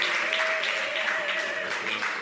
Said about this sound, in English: So come on, give it up to Pastor Jared.